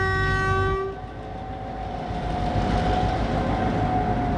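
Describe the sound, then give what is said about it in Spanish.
A GT-22 diesel locomotive leads, with a General Motors diesel locomotive pushing behind, at San Carlos de Bariloche station in sub-zero cold. A loud, chord-like horn blast sounds for about a second, then a steady engine rumble with a lingering tone continues. “La GT-22 9070 al frente y la General Motors 319 traccionando de refuerzo.”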